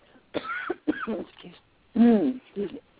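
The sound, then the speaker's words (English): A person coughs after swallowing the wrong way, with a few short, rough, voiced bursts separated by brief pauses, the last ones strongest. “excuse me. Oh, I just swallowed the wrong way.”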